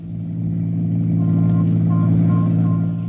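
Low engine rumble during a ride in a sedan, a continuous hum with strong deep tones that swells over the first second and then holds steady.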